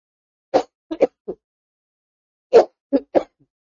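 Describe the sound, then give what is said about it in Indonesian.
Coughing from a male lecturer during a religious talk: two clusters of sharp, dry coughs, four in the first and three in the second, separated by a short pause, heard alone with no speech. “Saya minta izin batuk dulu.”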